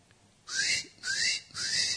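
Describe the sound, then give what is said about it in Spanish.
A person whistles three bird-like notes, each sliding upward in pitch and lasting a fraction of a second, with short gaps between. The notes are moderately faint, with no talk. “Silbidos también.”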